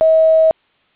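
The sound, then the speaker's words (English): A voicemail message tone: one steady, mid-pitched electronic beep lasting about half a second and then cutting off cleanly, loud and alone. “Leave your message at the tone, press pound when finished.”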